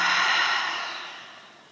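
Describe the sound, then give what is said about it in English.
A deep exhalation during a yoga session: one long, breathy rush of air that starts strong and fades steadily over under two seconds, with no talking. “Take a big breath in. Let it go.”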